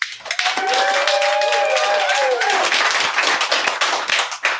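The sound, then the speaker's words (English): Clapping from a group of hands, many quick sharp claps in a steady, dense stream throughout, with a voice briefly heard over the early part. “John told me specifically not do that, but I just did. No clapping after my name.”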